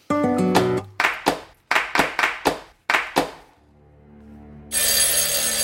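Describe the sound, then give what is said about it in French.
A telephone rings in a comedy sketch staged as a horror-film homage: a string of bright, clanging bell strikes in uneven bursts, then a quiet pause and a steady hiss. “Le téléphone sonne et vous serez une voix menaçante qui l'appelle.”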